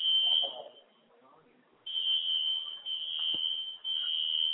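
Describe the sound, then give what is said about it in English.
A fire alarm going off during a football game, a loud, steady, high-pitched tone that cuts out for over a second, then resumes with brief dips, while faint talk runs underneath. “I just want to know where Downey Fire Department is. They should have shut this alarm off already.”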